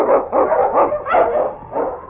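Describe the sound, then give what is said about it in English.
Barking from a husky sled dog, an Eskimo lead dog on the trail, comes as several sharp, loud barks in quick succession, forming a rough, uneven rhythm with no other sounds. “Wonder Dog King, swiftest and strongest of Eskimo lead dogs, blazes the trail through storm and snow for Sergeant Preston as he meets the Challenge of the Yukon.”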